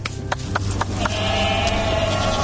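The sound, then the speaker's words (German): Goats bleating on a pasture as they are fetched, a drawn-out, wavering bleat that rises out of the second half over a steady low rumble, preceded by several sharp knocks or clicks. “Nachher holen wir die Geissen ab der Weide.”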